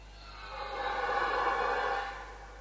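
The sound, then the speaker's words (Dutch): A dominant red deer stag bellows a warning at a rival on the rutting ground: a single long, deep, rough roar that swells and then fades, over a steady low hum. “Dit is mijn gebied, mijn roedel. We gaan luisteren naar de waarschuwing van het plaatshert.”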